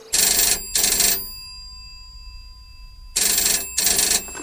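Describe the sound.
A telephone rings in two double bursts: two short, bright rings, a long pause, then two more. A steady faint hum with thin tones sits underneath throughout.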